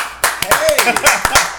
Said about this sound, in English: Man, I get claps. I'll take claps.